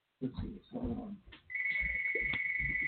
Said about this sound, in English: I don't think you should be running off and answering the phone during a call, a show. Well, apparently he's running off and answering the phone during a show.